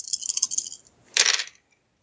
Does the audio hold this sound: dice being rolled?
yes